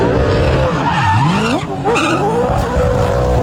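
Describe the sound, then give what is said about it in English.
A Supercars race car skids in a victory celebration after a Townsville 500 race. Loud, continuous tire squeal blends with engine roar, and the engine pitch wavers up and down throughout. “that's the sound of Supercars driver Brody Kostecki celebrating after taking out this year's Townsville NTI 500.”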